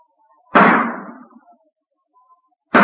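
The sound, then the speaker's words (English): Gunshots ring out at target practice: two sharp, loud cracks, the first trailing off in a fading tail and the second cut short at the end, with near silence between them. “stop shooting. Put down that gun.”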